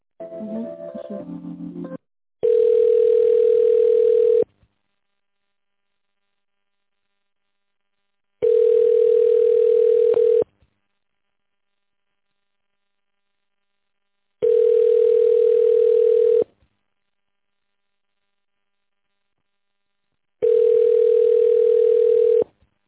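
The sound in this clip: Telephone ringback tone on a line while a call is being transferred: four long, steady single-pitch beeps, each about two seconds, separated by long silences, after a brief burst of mixed tones at the start.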